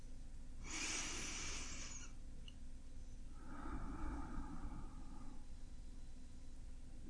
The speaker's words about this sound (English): So if we can just take a second and take a deep breath.